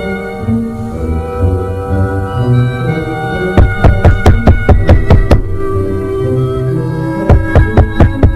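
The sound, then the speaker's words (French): Knocking on a bedroom door in two bursts of rapid, sharp raps, the first longer and the second shorter, over sustained music-like tones. “Son ami Jean est invité. Il occupe la chambre qui est à côté de la sienne. Et Xavier va frapper à sa chambre.”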